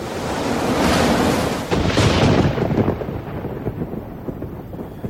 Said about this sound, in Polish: Burza.